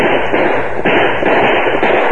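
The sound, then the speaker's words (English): Gunfire from a sheriff's posse shooting over outlaws' heads in a radio drama forms a loud, dense, continuous volley of shots with a muffled, band-limited tone. “The sheriff and his posse, firing over the outlaws' heads, moved in on them before the crooks knew what happened. Many were hit by bullets from the posse before they could fire.”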